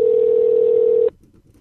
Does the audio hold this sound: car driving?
no

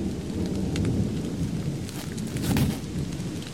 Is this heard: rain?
yes

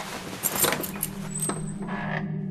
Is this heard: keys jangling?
yes

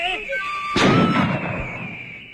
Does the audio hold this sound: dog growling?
no

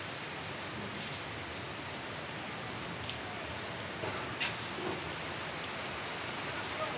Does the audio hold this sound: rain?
yes

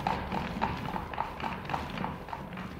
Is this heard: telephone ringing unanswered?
no

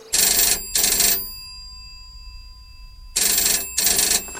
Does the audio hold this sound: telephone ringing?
yes

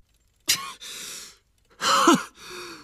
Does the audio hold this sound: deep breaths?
yes

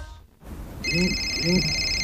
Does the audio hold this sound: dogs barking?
no

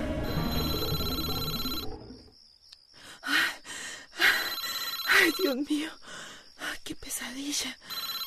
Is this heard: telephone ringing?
yes

